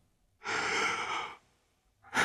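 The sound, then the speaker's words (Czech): A person sniffs a rose with a long, soft nasal inhale lasting about a second. It is breathy and quiet, and after a pause a second breath begins. “Přivoním k ní, dokud žije.”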